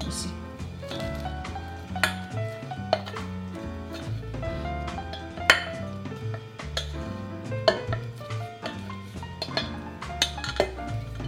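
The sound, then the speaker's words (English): Cooked rice is spooned into a pot of kidney beans for rice porridge, with many scattered metallic clinks and scrapes of a utensil against the pot, some sharper and louder than others. “we're gonna take our cooked rice, gonna add that right into the bean.”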